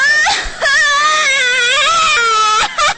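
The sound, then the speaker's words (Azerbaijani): A girl cries after losing a coin. Her loud, high, wavering wails are sustained and broken by a few short catches of breath. “Nə oldu, ay qızım, niyə ağlayırsan?”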